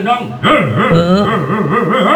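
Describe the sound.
A person imitates a dog barking, voicing a loud, continuous run of yelping, whimpering barks whose pitch wavers up and down throughout.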